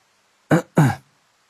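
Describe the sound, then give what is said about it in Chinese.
Two short coughs from a man, an abrupt throaty pair of bursts with a brief gap between them, loud and alone with no talk around them. “唐默咳嗽一声，努力平心静气，将这股没由来的邪火按捺下去。”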